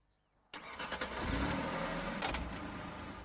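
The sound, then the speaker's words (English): A black Chevy saloon car's engine starts abruptly after a quiet moment, then runs and revs steadily as the car drives off, faint overall. “On the road beyond the fence, she smiles and gets into her black Chevy saloon car.”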